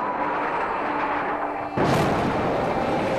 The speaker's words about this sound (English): This just one of 160 airstrikes by the Israeli military on Gaza overnight and into this morning.